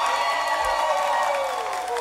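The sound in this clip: Applause for a guest on a radio show on 94.1 FM in San Cristóbal, a soft, even wash of clapping and cheering blended with a steady tonal background for about two seconds.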